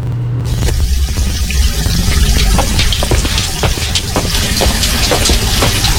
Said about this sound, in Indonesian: Kok seperti ada suara air? Iya Pak, benar. Itu mumpung air dari PDAM-nya mengalir. Jadi Ibu buka besar ya kerannya? Iya dong Pak.